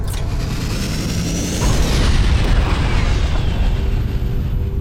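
A roaring explosion of a module hit by weapons fire in a space battle. A loud, continuous rumble and blast noise holds steady for several seconds, with a high sweeping tone fading through it.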